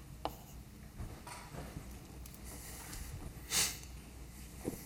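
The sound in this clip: Faint scratching and tapping of writing on a board during a physics lecture on the harmonic oscillator, with a few soft strokes scattered through the quiet and one brief, sharper scrape near the end. No one speaks.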